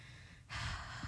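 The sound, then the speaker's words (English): A single heavy human breath, a faint, breathy rush that swells suddenly and holds for a moment, with soft low puffs underneath. “You're breathing heavy for no reason.”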